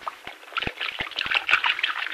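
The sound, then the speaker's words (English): Liquid is poured out into a small puddle, heard as a faint, uneven splashing trickle broken by a few sharp clicks and knocks. “You just pour it out, do you? Yeah, like this, see?”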